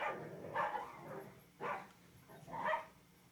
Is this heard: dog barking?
yes